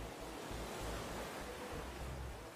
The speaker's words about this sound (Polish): Szumi morze,